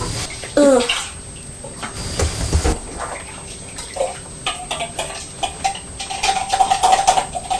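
Running water from a tap while a bottle is washed out during the washing up: a continuous, fairly loud splashing and rushing that shifts in texture as the bottle is rinsed.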